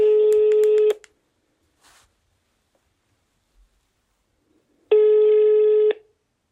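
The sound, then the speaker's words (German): Telephone ringing tone as a call is placed to a retired homicide investigator: two long, buzzy tones of about a second each, separated by a long quiet gap, with no voices. “Ich rufe nochmal einen ehemaligen Mordermittler an.”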